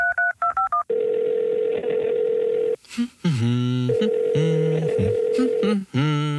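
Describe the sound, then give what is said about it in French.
A rapid burst of telephone keypad tones sounds as a call is placed. A steady, loud tone follows, then other tonal sounds with brief gaps. “Je vais l'appeler maintenant.”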